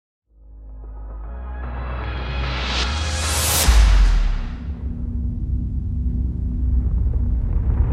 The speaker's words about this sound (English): The mountain is caving in.